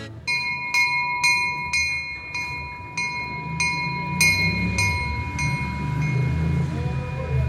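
A train pulls out of Lourdes station as a bright bell strikes many times at a steady pace, its ringing tones carrying over a continuous low rumble.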